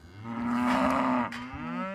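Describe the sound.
Cattle in a herd mooing near a newborn calf only hours old: one long, low, droning moo lasting about a second, followed after a short pause by a second, shorter call, with no people talking.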